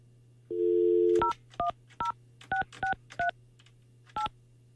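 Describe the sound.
Telephone dialing a call: a steady dial tone, then several short touch-tone key beeps at uneven intervals, all over a constant low hum.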